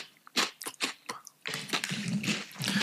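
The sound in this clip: Crunchy chewing of food: several distinct quiet bites and munches, then denser continuous mastication with soft crunching.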